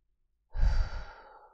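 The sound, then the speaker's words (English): A single deep breath heard as a soft, airy exhale like a sigh. It starts after a moment of silence and fades away gradually. “right now take a couple deep breaths in and out. Experiencing your chest rise,”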